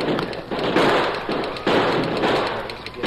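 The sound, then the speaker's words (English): Gunshots fire during a horseback fight on the Western frontier, several sharp, overlapping bangs in quick succession over a rumbling background. “Use your gun”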